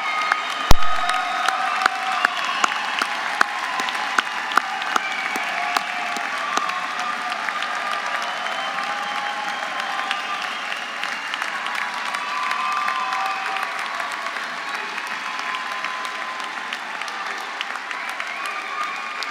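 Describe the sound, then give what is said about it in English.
A standing audience at a Cornell University ceremony applauds at length, with a steady, sustained roar of clapping and a few faint cheers mixed in. “Will everyone please rise and join me in a round of applause?”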